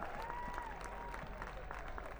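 Audience applause at a live fiddle and folk music show, steady clapping and a soft crowd murmur throughout, fairly quiet, with a held tone at the start.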